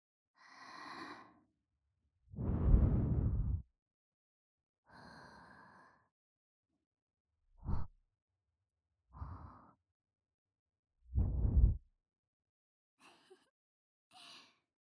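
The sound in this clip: Gentle breath blown into the listener's ear after ear cleaning: several soft, airy puffs, some longer and fuller, others short, each followed by a quiet pause.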